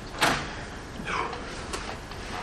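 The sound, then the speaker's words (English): A door is opened: a sharp click at the start, then a softer sliding swish a moment later and another light knock, all fairly faint over a steady background hiss. “would you open that door too, please?”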